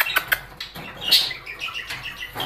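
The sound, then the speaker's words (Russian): A pet bird chirping: a few short, high chirps mixed with light fluttering and rustling, fairly quiet, with no talk. “Хорошая Аркаша, Аркаша, хорошая птичка, птичка. Хорошая птичка.”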